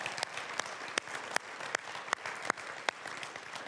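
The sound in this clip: A church audience claps for its worship team in steady, sustained applause, with a few sharper individual claps standing out.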